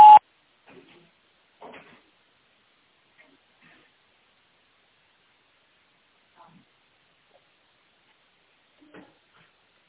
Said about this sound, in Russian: Оставьте ваше сообщение после сигнала.